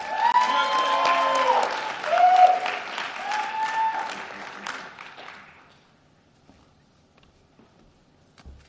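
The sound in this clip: An audience at a university chapel service applauds a student speaker. Dense clapping comes with a few high whistles, then fades out after about six seconds to near silence.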